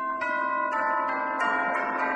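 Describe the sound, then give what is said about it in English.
Castle bells ring out in a run of repeated strikes, with each bright metallic tone overlapping the sustained hum of the last, loud and steady throughout. “The castle bells rang out”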